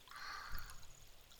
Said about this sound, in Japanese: 洗い流そう。少しずつ方向を変えながら、